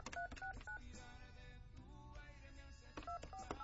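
Telephone keypad tones dial a number during a call-in radio show, with short, crisp beeps in two quick groups, one at the start and one at the end, over a steady tonal background.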